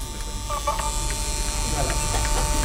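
A Nagra VPR5 video tape recorder runs with its cover open, giving off a steady mechanical whirr with a constant hum and a high whine, loud and unbroken throughout.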